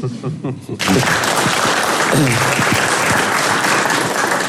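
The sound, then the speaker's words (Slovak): Loud, dense audience applause erupts after a short stretch of talk at a comedy discussion in Košice, the clapping holding steady to the end while a voice briefly cuts through it. “Nemusíte tlieskať, my sme v práci. Ale ďakujem.”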